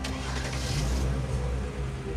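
A car starting and driving away from the road in front of a house: a steady, low engine rumble that holds a fairly even level throughout.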